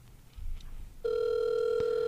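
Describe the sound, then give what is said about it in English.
Telephone ringback tone of an outgoing call: faint low rumble and rustle give way midway to a steady, unbroken buzzing tone that holds to the end. “Let me hear your voicemail. My voicemail? Yeah. Oh my, okay. All right, I'm going to call Andrew real quick.”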